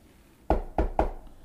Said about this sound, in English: then his military intelligence attaché knocked on the door.